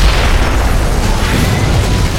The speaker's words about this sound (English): The barbershop exploded in a mass of splintered wood and broken glass.